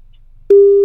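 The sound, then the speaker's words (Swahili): Telephone line tone while calling someone: half a second of near silence, then a steady, mid-pitched electronic tone switches on abruptly and holds unchanging to the end. “Kevo, shika simu jamani.”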